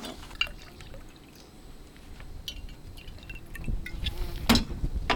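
A drink is poured to refill a cup, starting as a faint trickle with scattered light clinks and swelling into a fuller, louder splash toward the end.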